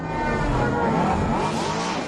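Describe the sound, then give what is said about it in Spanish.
A flying taxi from a science fiction film roars past with a loud, continuous whooshing engine drone, a dense rushing noise that swells slightly and holds steady for the whole stretch. “así sonaban los taxis voladores en la película El Quinto Elemento”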